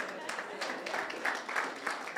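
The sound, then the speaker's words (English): A church audience clapping for mothers during a sermon, fairly faint, with claps that fall in a steady, regular rhythmic beat and hold an even level throughout. “Someone clap hands for moms.”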